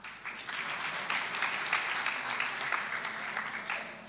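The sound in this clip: Applause at an awards ceremony after a category winner is announced. Clapping builds quickly at the start, then holds as a dense, steady patter at moderate loudness for a few seconds.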